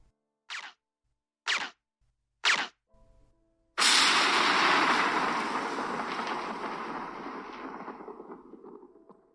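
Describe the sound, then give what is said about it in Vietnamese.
Three short, muffled puffs of a silenced gunshot sound effect come in quick succession. A loud crash of rolling thunder then breaks out and slowly fades away. “Tiếng súng được lắp ống giảm thanh vừa dứt”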